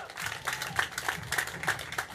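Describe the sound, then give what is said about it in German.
Applause for racing driver Kelvin van der Linde as he is called up at an event, faint and uneven clapping with distinct individual claps popping out in irregular bursts. “Applaus für Kelvin van der Linde!”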